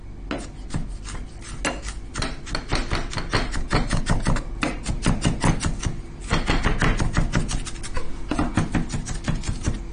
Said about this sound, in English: The onion is cut. So you can do it with a knife, or in Italy